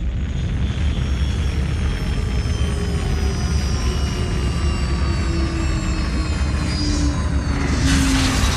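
A spaceship lands at the Polak space station in a sci-fi audio drama. A loud, steady engine roar carries thin whining tones and swells slightly toward the end.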